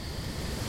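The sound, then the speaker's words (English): A gust of wind in a forest at night, a steady, broad rushing roar with a low rumbling undertone, holding at an even, moderate level throughout, with no voices. “And a couple more seconds and you'll feel a gust of wind.”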